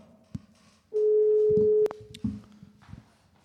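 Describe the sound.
A phone plays a single steady electronic tone for about a second after a contact is dialed from the call history, with soft handling clicks before and after.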